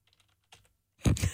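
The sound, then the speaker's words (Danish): Typing on a noisy computer keyboard: a few faint ticks, then a loud, dense run of clacking keystrokes at the end, with no talk. “Det er godt, du har et tastatur, der larmer, så man kan høre, du rent faktisk laver noget.”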